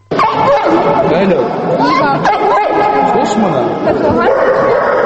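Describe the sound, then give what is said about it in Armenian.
Dogs bark, yip and whimper at a dog exhibition where some fairly aggressive dogs are shown, the loud, repeated barks overlapping a constant chatter of people. “Իսկ կանա ցուցահանդեսին ներկայացված էին նաև բավական ագրեսիվ շներ, որոնք իրական վտանգ են ներկայացնում շրջապատի համար։”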